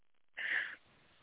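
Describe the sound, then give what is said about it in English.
A single deep breath taken during a guided healing session: one smooth, breathy rush lasting under half a second. It is fairly loud against near silence. “Okay, go ahead and take one more deep breath.”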